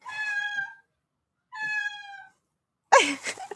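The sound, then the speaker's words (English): A pet cat meows twice, each call a clear, high, harmonic cry under a second long. After a short pause comes a shorter, rougher and noisier vocal burst. No one speaks. “Eric's being interrupted by his cat. I don't know if you guys can. I'm sure you guys can hear that.”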